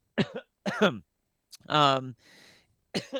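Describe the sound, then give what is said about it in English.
Coughing and throat clearing from choking on saliva come in a few separate, strained bursts. One longer, harsh throat clear stands out, followed by a faint breathy exhale and a final short cough. “sorry, I got a little spit in my throat there. Choking down my own spit. Choking on my spit.”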